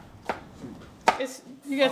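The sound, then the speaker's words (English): A knife chops peppers on a cutting board in a home kitchen while chicken chili is being prepared: two crisp, fairly quiet chops spaced close together, with soft background sounds between them. “The house is warm and smells like chopped peppers.”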